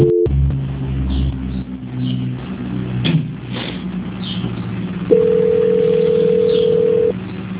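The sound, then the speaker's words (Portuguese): A telephone tone plays while a call is being transferred. A low hum comes first, then a single steady tone holds for about two seconds before cutting off. “Eu vou transferir para a auditoria, só não liga, tá bom? Ok. Transferência.”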